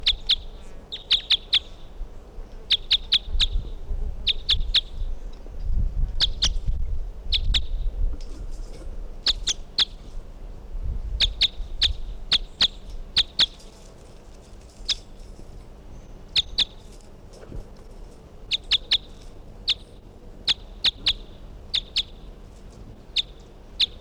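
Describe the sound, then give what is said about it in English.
Bird calls repeat throughout as many short, high, sharp chirps in quick clustered bursts, evenly spaced over a faint low rumble. “Bird 363.”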